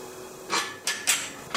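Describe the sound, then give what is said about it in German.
Clanks from a pottery kiln door as it is shut and its wing screws are tightened before the vases are fired: four short, faint metallic knocks at uneven intervals, with quiet between them. “Mit den Flügelschrauben kann man die richtig gut festziehen, die Tür, und dann ist sie geschlossen.”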